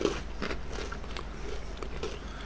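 Someone bites into dark chocolate with a ginger filling, producing a few faint, crisp bite and crunch sounds over a low, steady background.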